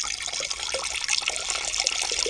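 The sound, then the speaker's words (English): A comedy sound effect of a person urinating, a loud, continuous splashing stream of liquid with a steady hiss and no pauses, heard alone without voices. “Urinate. Pass your water.”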